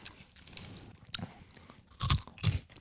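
Crunchy chewing of a crispy, unusually firm dough snack shaped like thick Spätzle. Faint crackling chews lead into two louder crunching bites near the end, with no talk.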